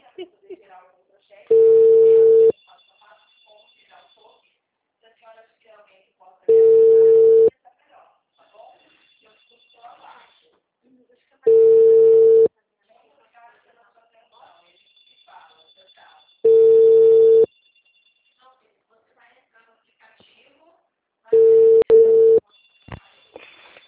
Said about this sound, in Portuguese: tô ligando pra alguém.